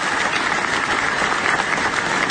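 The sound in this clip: Audience applause at the closing ceremony of an international reading and book fair, held in a theatre in San José. Steady, dense clapping runs evenly throughout.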